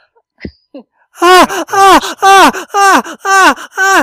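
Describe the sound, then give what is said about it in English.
A person makes an exaggerated human groan after a few short faint sounds. It is a loud, rapid run of voiced moans, each sliding downward in pitch. “Wait, oh, no, I'll make it a better groan. Hold on.”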